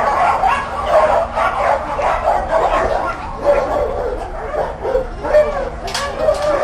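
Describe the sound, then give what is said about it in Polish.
A small dog weighing about ten kilograms, one that shies from being touched, yips, barks and whimpers in a continuous run of loud, high, uneven calls and whines. “To jest właśnie taki piesek. Niedotykalski. Bardzo mały. On 10 kilo waży.”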